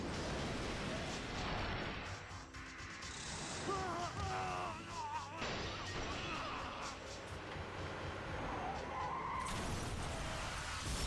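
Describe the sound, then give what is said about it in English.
A semi truck in the animated film Superman: Doomsday produces a continuous loud roar and rumble with rushing, scraping noise, blended with other soundtrack effects throughout. “Oh, a semi. Playing some nondescript country pop, it sounds like.”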